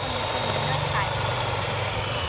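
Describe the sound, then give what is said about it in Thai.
Eggs are whipped with a beater until white and fluffy, giving a steady, loud whirring drone with a low hum underneath that runs unbroken for about two seconds. Voices talk over it. “เห็นไหมเห็นไหมมันจะมีฟองๆขึ้นแล้ว ตีให้ขึ้นฟูขาวเลยลูกตีลงไปที่ไข่เลยลูก”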